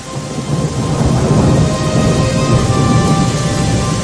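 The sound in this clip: Rain falls steadily with thunder, a loud dense hiss of drops over a deep, continuous low rumble that holds throughout without any voices.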